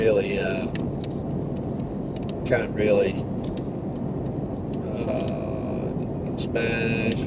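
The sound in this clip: Steady interior road noise from a moving car, a dense low rumble that runs unbroken throughout, with brief higher-pitched sounds flickering over it.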